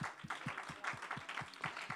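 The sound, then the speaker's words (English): Congregation clapping hands in praise at a church service, a faint but quick, steady patter of claps with soft low thumps under each beat. “Let's give the Lord a hand clap of praise and thanks.”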